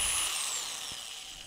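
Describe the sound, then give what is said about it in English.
A power drill running during a demonstration, a loud, high-pitched whine whose pitch slips downward as it slows over a brief moment. “You can drill things.”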